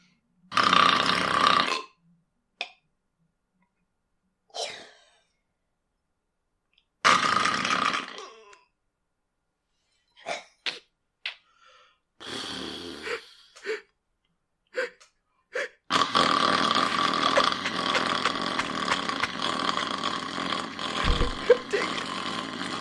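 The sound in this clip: A person vocally imitates their own breathing while asleep. A few breathy gasps and gulps alternate with silent pauses, then a cluster of short catches and grunts follows, ending in a long, continuous rasping exhale-like sound.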